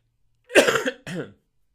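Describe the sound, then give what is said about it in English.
A person coughs in two quick harsh bursts, with no talk, from someone who may have fall allergies or an illness coming on. “I think I'm having some fall allergies, or maybe something's coming up. I don't know. Body wants to cough it out.”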